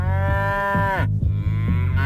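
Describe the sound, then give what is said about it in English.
A cow gives one long, loud, richly harmonic moo that drops in pitch as it ends, over a low steady rumble that continues afterward. “Are the moos in charge?”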